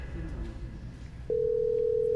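Telephone line tone while placing a call: after a stretch of low background murmur, a single steady, even-pitched tone starts partway through and holds unbroken to the end.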